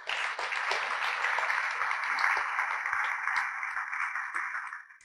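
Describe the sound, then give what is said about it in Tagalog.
An audience applauds during a church service, with dense, steady clapping that holds for about five seconds before fading at the end. “Pwede bang palakpakan natin ng Lord?”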